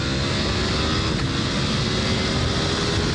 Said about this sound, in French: Alors ce qui est génial avec la V4, c'est qu'on est bien tout de suite dessus. Elle est hyper accueillante. J'ai l'impression bien plus que la V2 Panigale.